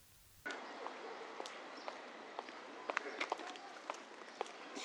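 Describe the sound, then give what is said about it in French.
Two people walk along a sunny street toward the market, their light, irregular footsteps ticking over a quiet street background. “On marche en direction du marché.”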